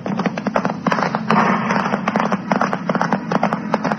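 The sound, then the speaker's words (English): Gunshots fired by a mounted horseman as a posse pursues fleeing convicts: many sharp, rapid cracking reports in an irregular burst over a steady noisy background, fairly loud throughout. “The horseman, the man who fired the shots, right away passed.”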